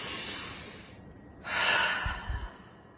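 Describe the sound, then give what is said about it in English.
A deep breath taken slowly, a breathy rush of air that swells and then eases off over a faint background hiss. “So take this breath with me.”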